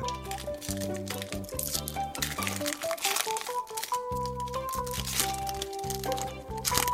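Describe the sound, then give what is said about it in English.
Trading card packs being torn open: many crinkling, crackling wrapper crunches and rustles over steady background music. “All right, well, so, should we open some cards?”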